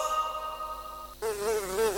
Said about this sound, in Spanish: Otra vez las moscas. ¿Hasta cuándo vamos a seguir con este problema?